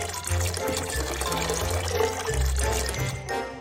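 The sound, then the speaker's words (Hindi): Hot water is poured into a cup holding a herbal tea bag, making a steady, continuous splashing and gurgling stream that fills the whole moment without talk. “अपना herbal tea bag एक cup में डालें, थोड़ा गर्म पानी डालें,”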